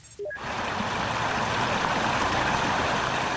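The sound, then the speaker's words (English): Cars drive through floodwater on a flooded roadway in North Bend, Washington, after heavy rain and melting snow, making a steady, loud rushing wash of water. A few short rising beeps come first, then the wash continues unbroken. “So that's the sound of cars being flooded on the roadway in North Bend, Washington.”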